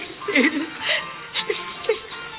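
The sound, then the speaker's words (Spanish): A woman sobs and whimpers in a dramatic scene, giving several short, broken, high vocal bursts of moderate loudness separated by brief gaps. “Bella señora, ¿por qué llora? Déjeme ayudar.”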